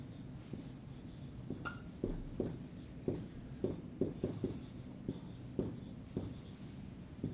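Faint tapping and scratching strokes of writing on a board, many short marks arriving in an uneven rhythm over a low background hum.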